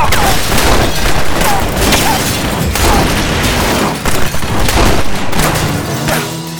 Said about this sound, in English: Doc whirled and fired his Colt, hitting Frank in the forehead.